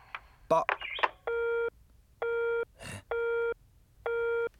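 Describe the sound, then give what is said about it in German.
A telephone busy tone sounds on a dead or faulty line: four steady, evenly spaced beeps of equal length. Short vocal sounds come just before the first beep and again between two of them. “Ist mein Telefon defekt oder das von Frau Leibniz?”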